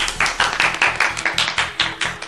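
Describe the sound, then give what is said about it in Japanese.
Applause opens a segment about a winter snow festival in Nagaoka, heard as about a dozen loud, evenly spaced handclaps in a steady quick rhythm, with no talking. “拍手。”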